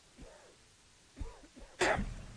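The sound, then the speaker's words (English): Harsh coughing comes in a few faint, rough bursts separated by pauses. The last burst is the loudest and noisiest and trails into a short rasp, with no talk alongside. “I think you're going to the hospital. You're coughing up a lung over here.”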